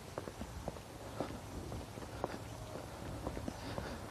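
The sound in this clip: Footsteps of a person walking briskly give a faint, steady rhythm of many soft, even treads over a low background hum.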